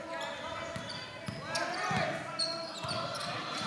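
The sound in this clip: Basketball dribbled up top during a game, several low bouncing thuds at an uneven pace under a commentator's talk and faint crowd noise.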